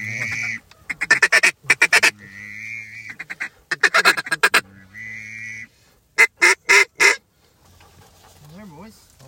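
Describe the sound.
Ducks quacking near a hunting blind, including pintails, in several rapid bursts of loud, nasal calls. Softer, wavering calls follow toward the end.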